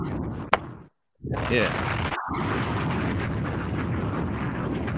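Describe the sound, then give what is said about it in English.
A bomb explosion sound effect: a sharp click, a moment of total silence, then a loud, dense roar that holds steady and rumbles on to the end. “Drop a bomb for yourself. Go ahead.”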